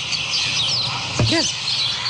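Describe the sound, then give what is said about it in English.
Birds chirp outdoors at a homeless encampment: a few faint, short tweets and quick arcing calls over a steady bed of background noise. “listen to the birds chirping”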